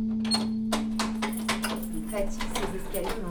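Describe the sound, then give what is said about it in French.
A key working a stiff door lock, producing a run of metallic clicks, rattles and scrapes of varying loudness over a steady low hum. “Elle est dure ta serrure là, non? Hein? Elle est dure ta serrure. Ouais, faut que je mette du W40.”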